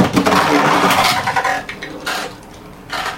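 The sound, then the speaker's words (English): A Beyblade spinning top launched by pulling its rip cord: a loud rasping whoosh, then a fainter scraping whir as the top spins, with a few brief clattering bursts near the end. “then you pull the rip cord. Okay. And the Beyblade spins.”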